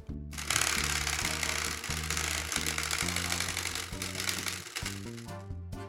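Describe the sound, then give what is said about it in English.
A prize wheel being spun gives a loud, rapid ticking rattle that runs steadily for about six seconds, with sustained tones shifting in steps underneath. “it's time to spin the wheel.”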